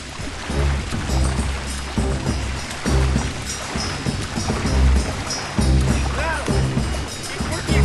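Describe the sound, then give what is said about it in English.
Water churning as five people paddle a boat with their bare hands, split across both sides of the hull, with splashing strokes over a steady low rumble that pulses heavily throughout. “Johnny, Matt, and Kitty paddle with their hands on one side of the boat, while Zeke and Simon paddle on the other side.”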